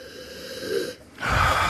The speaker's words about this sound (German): Mach mal deine Augen zu und riech rein. Vielleicht ist er sogar Torfmalz drin.